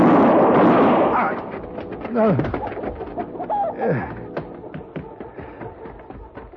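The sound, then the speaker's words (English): Chickens squawking in a farmyard outside a farmhouse: a few sharp, swooping cries rise above a dense, noisy background. No one speaks. “and the chickens began to squawk.”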